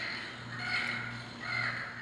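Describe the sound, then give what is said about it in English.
Two harsh, squawking Yucatan parrot calls play back from an educational button on an interactive stairwell railing. Each call is a loud, rasping burst of about half a second over a steady low hum. “And here's a button for the Yucatan parrot.”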